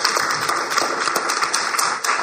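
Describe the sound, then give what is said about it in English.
An audience applauds to welcome a guest at a storytelling event. The clapping is a dense, steady patter that stays at an even level throughout. “And just a round of applause for having her.”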